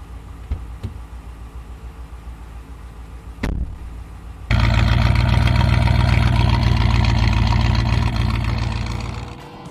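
A car engine during a drive. After a few faint knocks and a short burst, the engine comes in loud and steady with a deep, full drone, then eases off slightly near the end.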